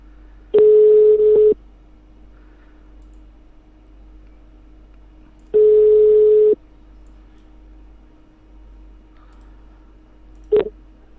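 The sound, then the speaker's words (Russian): Dialing tones of an outgoing Skype call: two long, steady tones of about a second each, several seconds apart, then a brief sharp blip near the end over a faint constant hum. “Так, я сейчас со скайпа наберу. Набираю.”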